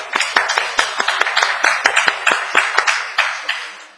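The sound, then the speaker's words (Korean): Clapping from a church audience congratulating a female church elder: many sharp, evenly spaced claps in a steady rhythm, fairly loud, with no talk over them. “우리, 권사님 축하 박수 한번 부탁합니다.”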